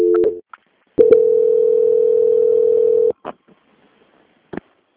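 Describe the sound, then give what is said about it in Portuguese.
Telephone line tones during a call transfer: a short steady tone and a click, then a long, unbroken electronic beep of about two seconds. A couple of faint clicks and one last brief click follow. “peço que o senhor aguarde em linha que eu vou transferir para um controle de qualidade”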